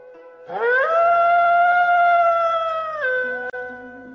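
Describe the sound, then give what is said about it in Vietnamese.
A wolf howls in one long, loud cry. It swoops up at the start, holds a steady tone, then drops in pitch near the end, with nothing else heard. “Sói chu kinh thiên”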